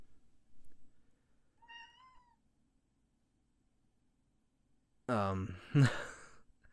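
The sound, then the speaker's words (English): House cat yelling and meowing: a faint, short meow comes first, then after a quiet gap a loud, drawn-out, strained yowl rises sharply above the low background hum. “I really hope you can hear my cat yelling in the background.”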